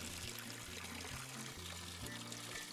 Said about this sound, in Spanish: ¿Acaso hay algo de malo en lavar mi camioneta con manguera?